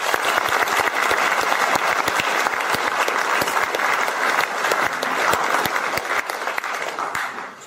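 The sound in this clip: Warm audience applause welcoming guests at a book event: loud, dense clapping with many sharp individual claps standing out, holding steady before fading near the end.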